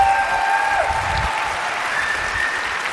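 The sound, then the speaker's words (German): Applause at a congress: a brief, steady wash of many hands clapping for about three seconds, with a thin sustained tone running faintly through it. “Und da muss man auch mal sagen, das ist ein Applaus wert, so eine Aufgabe.”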